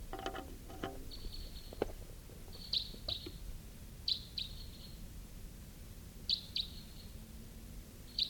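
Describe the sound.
Wild birds chirping: short high-pitched chirps, often in quick pairs, repeat every second or two over a steady low background rumble.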